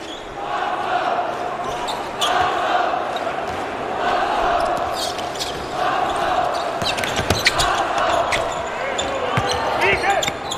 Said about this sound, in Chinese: 冯奥运球找节奏，投一个，短了。